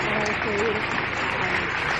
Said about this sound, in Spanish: Aplausos para recibirle.